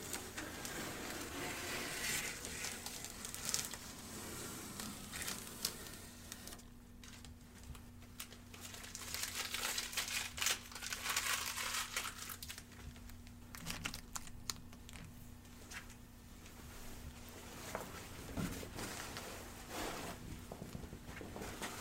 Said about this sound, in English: Pull that tape from the baseboard.